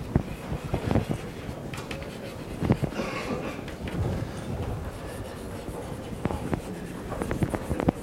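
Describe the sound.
Someone writes a bracketed note by hand during a technical lecture on railway wheelsets. The sound is a continuous scratchy scraping with a few sharper taps, fairly steady and with no talk over it.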